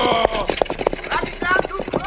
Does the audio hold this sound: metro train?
no